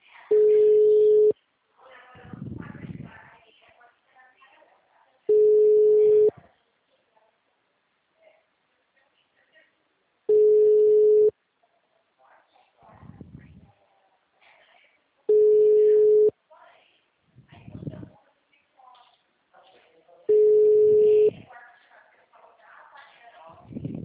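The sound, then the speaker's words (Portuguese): Ringback tone of an outgoing phone call that is ringing normally: five evenly spaced one-second tone bursts with long gaps between them, and quiet voices talking in the pauses. “Agora tá chamando normal.”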